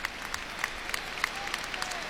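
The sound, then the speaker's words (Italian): Stadium crowd at San Siro applauding a Milan football team's captain, a faint, steady wash of clapping with a few sharper claps standing out. “Capitano applaudito da tutto Milano San Siro.”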